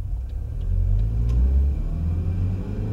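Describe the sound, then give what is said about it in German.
Low, steady engine rumble of a taxi driving slowly around a corner into a side street. The deep drone swells slightly in the middle, with a few faint clicks above it. “Einen halben Block weiter parkte ein Taxi. Wo soll's hingehen? Kleine Schattenfahrt, okay? Genau mein Fall, Boss. Fahren Sie langsam um die Ecke in die Seitenstraße.”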